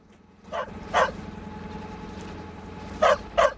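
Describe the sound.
A dog barks on a yacht while sitting on the cabin roof: four short, sharp barks in two pairs, one early and one near the end, with a steady low background hum between them.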